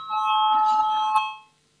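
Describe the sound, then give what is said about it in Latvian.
A bell rings in a parliament chamber before a vote, giving one sustained, bright, steady tone for about a second and a half that then stops and fades out. “Lūdzu, zvanu, balsosim”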